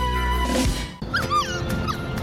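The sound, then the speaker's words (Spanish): A small female dog whimpers and yips, giving a few high, thin whines with bending pitch over a steady background. “¿esta perrita es suya? Sí, la adopté.”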